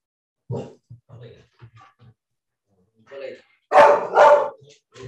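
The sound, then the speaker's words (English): A dog protecting the house barks twice in loud, sharp succession near the end, after quieter stretches where a person talks and a few softer sounds come and go. “so this happens from time to time. You know, Everdeen is the dog, and he's, you know, she is protecting the house”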